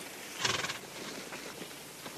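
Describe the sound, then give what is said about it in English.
A horse gallops up, giving a short whinny followed by faint, rhythmic hoofbeats, all fairly quiet. “The hired hands and two of the women rush to the horse's side. Joey, McDonald's wild-haired daughter, gallops up to Saul.”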